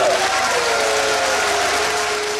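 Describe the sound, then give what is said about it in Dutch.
Applause breaks out at a D66 party congress as Jan Terlouw's candidacy result is announced. A dense, even wash of clapping is mixed with crowd voices and holds steady for the whole stretch. “Applaus en boegeroep.”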